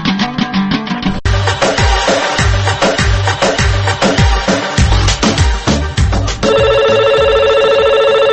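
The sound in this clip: A telephone rings with an incoming call from a listener. Rhythmic music with a strong beat plays first, then a loud, steady electronic ring takes over near the end.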